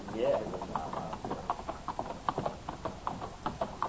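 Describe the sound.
Clip-clop of horses' hooves as riders set out on horseback, ready for a long ride. A steady, soft rhythm of hoofbeats goes on throughout, with faint voices in the background.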